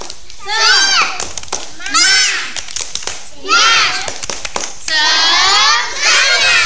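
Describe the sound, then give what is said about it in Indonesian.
Children perform the tepuk semangat clapping chant in four lively bursts of high, bright voices, each phrase punctuated by quick rhythmic hand claps, with short pauses between the phrases. “Ayo sekali lagi, tepuk semangat.”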